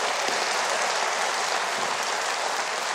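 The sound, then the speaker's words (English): A studio audience at a talk show applauds a live music act, dense, sustained clapping from many hands that stays even and unbroken throughout. “If you're wondering why the audience is applauding so wildly, let me explain.”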